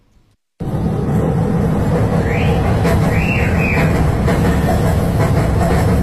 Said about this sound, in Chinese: 打开窗户录下了这段列车通过时产生的声音